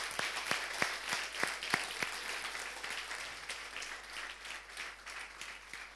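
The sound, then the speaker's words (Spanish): An audience applauds, many hands clapping at once. A few sharp, distinct claps stand out early, then the applause continues as a steady, fairly soft patter. “Muy bien, ahora sí, un aplauso para todos.”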